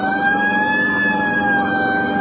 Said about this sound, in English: Right, I'll hit the siren.